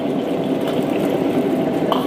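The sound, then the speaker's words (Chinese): Scallions sizzle in hot rapeseed oil in a pan, a dense, steady crackling hiss that carries on evenly with no talk. “热锅凉油，加入大葱。”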